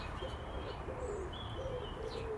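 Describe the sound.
Starlings calling from a Leylandii tree: a few faint, thin whistles and squeaky chirps rise and slide over a steady, rushing background noise.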